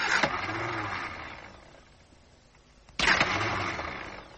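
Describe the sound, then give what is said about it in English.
A car's starter motor cranks while the engine fails to catch, in two loud grinding bursts separated by a quieter pause. “I think the starter motor's gone.”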